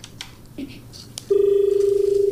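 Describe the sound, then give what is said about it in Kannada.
Telephone tone from a dropped call: after a stretch of faint background noise, a loud, steady mid-pitched tone starts abruptly and continues to the end with a slight rapid pulsing. “ಕರೆ cut ಆಗಿದೆ, ಮತ್ತೆ ಪ್ರಯತ್ನ ಪಡಿ ಅಂತ ಹೇಳ್ತಾ.”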